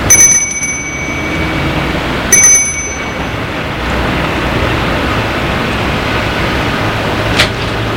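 A house doorbell rings twice, each a short, bright, high metallic ring about two seconds apart, followed by steady low background hiss.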